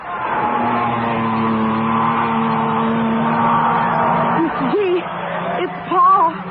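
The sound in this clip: Race car engines roar on a racing track, a loud, steady, droning mass of engine tones lasting several seconds, with voices breaking in near the end.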